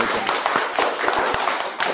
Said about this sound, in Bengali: একটা হাততালি।